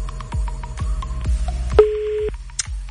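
Telephone line tones as a caller is put through on an Arabic radio show: a few short beeps over low thumps, then one sustained steady tone, and a brief high blip at the end.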